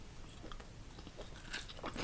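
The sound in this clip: Someone quietly chews crunchy vanilla crescent cookies, with soft biting and crunching and a couple of sharper crackles near the end.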